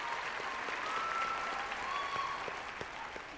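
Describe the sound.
Dense, steady applause from an audience that includes a grinning teen standing to clap, the clapping holding at an even, fairly loud level for the whole stretch.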